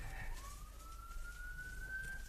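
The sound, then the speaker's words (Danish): An ambulance siren sounds out in a street in Lisbon, faint against a low background hum. It is a single wailing tone that jumps up in pitch early on, then holds and slowly climbs higher. “der kommer lige en ambulance eller noget derude på gaden.”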